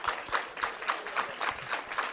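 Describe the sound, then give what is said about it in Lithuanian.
An audience applauds after a sermon with rhythmic clapping in unison. Sharp claps fall on a regular, steady beat and stay moderately loud from start to finish. “Aš visą laiką sakau, kad po gero pamokslo žmonės ploja.”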